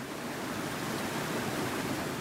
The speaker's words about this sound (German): Ich stehe auf der Aussichtsplattform und blicke auf die donnernden Wassermassen